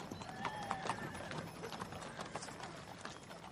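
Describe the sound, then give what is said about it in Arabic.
The galloping horses of an army: rapid, continuous hoofbeats with a whinny rising above them early on, all fairly faint. “ألا ترى خيل جيش يحيى بن الحسين راكضة نحونا؟”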